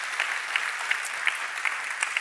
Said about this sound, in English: Can we give a big hand to all of our guests, everybody, would you?